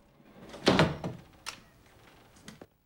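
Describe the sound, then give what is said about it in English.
A sliding door is pulled shut into a grandmother's room, giving a cluster of wooden thuds and rattles, loudest near the start, followed by a few lighter knocks as it settles, with no voices. “He slides the door shut.”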